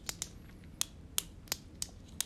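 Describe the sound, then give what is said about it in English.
Seven sharp, light clicks of a pen button, the first two close together and the rest spaced apart, quiet and alone with no talk. “So you take your pen, right? You know? You click it”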